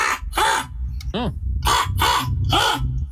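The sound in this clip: A person's voice imitates a crow's harsh caw, repeating a set of calls to draw the attention of birds. A series of about six raspy, harmonic caws comes in a steady rhythm, one shorter and arched in pitch.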